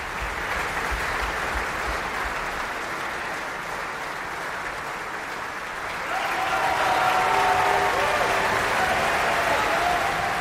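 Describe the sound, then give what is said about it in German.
An opera house audience at Bayreuth applauds a singer taking bows, a dense, even wash of many hands that swells noticeably louder partway through and then holds steady. “Sie hören es am Publikum, am Applaus. Er wird hier von allen gefeiert.”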